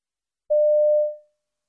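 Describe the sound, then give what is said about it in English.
A telephone answering machine gives a single steady beep of medium-high pitch, held for under a second and then fading out, with silence before and after. “You hear a message on a telephone answering machine.”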